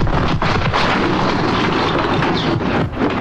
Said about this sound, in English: A massive explosion rocks the boardroom, shattering glass and throwing members to the ground.